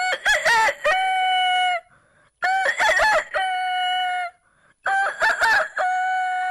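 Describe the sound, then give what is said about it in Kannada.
A human voice imitates a rooster's crow three times. Each loud, harmonic cock-a-doodle-doo starts in stuttering bursts and ends in a long held note, with short gaps between the calls. “ಮೊದಲಿಗೆ ನಾನು ಕೋಳಿಯ ಧ್ವನಿಯನ್ನು ಕೇಳಿಸುತ್ತೇನೆ.”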